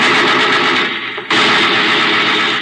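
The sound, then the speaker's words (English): Sustained machine gun fire, a dense, loud roar of rapid shots that briefly thins near the middle before resuming at full strength. “Pentagon, give me that machine gun.”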